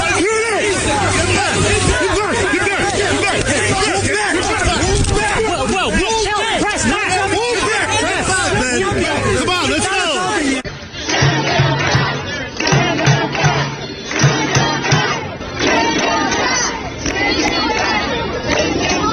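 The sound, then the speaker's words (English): A protest crowd chants in a dense, loud roar of many overlapping voices that holds steady throughout, its texture shifting partway through. “People saying send them back.”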